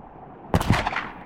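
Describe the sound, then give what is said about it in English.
Gunfire from a gun battle erupts after a quiet hush: a few loud, sharp reports crack in quick succession, then die away into faint noise. “he was awakened by what sounded like a gun battle”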